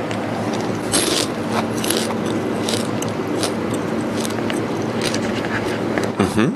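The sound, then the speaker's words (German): Crunchy chewing of a large beetle being eaten: a steady run of crisp, crackling bites and grinding crunches, fairly loud and close, continuing for several seconds. “als letzte Station ein so ein großen Käfer. Na, schauen wir mal. Der ist so gut crunchy, ne? Um nicht zu sagen, das ist die Mutter der Crunchiness.”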